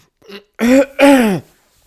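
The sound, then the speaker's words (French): A man clears his throat: a faint short rasp, then two strong, harsh bursts in quick succession, heard alone. “Le plus vaillant des vaillants camarguais se racla la gorge.”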